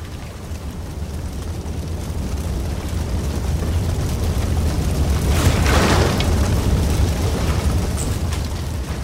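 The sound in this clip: A ship set alight with torches burns and explodes, giving a continuous deep roaring rumble that swells to a peak midway and then eases slightly. No separate blasts stand out.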